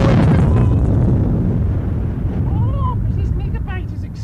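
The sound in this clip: An explosion gives a loud, broad rumbling roar that starts at full strength and slowly fades, with voices speaking as it dies away.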